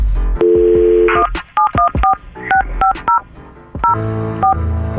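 A telephone number is dialed on a touch-tone phone, producing a quick series of short electronic beeps that change pitch from key to key. Other steady tones sound around them, and no one speaks.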